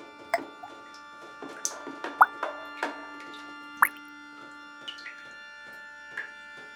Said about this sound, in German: Der Wassertropf, Tropf, Tropf, Tropf, Tropf, Tropf, Tropf, Tropf, Tropf, Tropf.